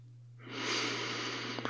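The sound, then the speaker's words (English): One slow, deep inhalation by a person, a soft airy rush that swells in and holds for over a second. It is fairly quiet, with a steady low hum underneath and a faint click at the end. “Inhale.”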